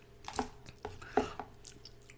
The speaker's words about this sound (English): Now bite down. There's gonna be a gel that squirts out.